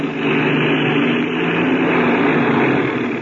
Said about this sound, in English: I'm going to taxi real fast. Okay, go ahead. By getting up a little speed, the wings will take some of the weight off the wheels.